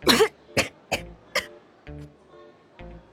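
Harsh coughing from a young person choking on a mouthful of food: a quick run of four strong coughs, then two fainter, spaced-out coughs.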